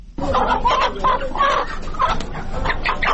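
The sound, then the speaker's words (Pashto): Caged chickens clucking at a shop in the Sadda bazaar: many loud, nasal clucks and squawks in quick, uneven succession over a busy background, with no voices. “د صدې په بازار کې دکاندار د خرڅ لپاره لا پنجرې چرګ راوباسي.”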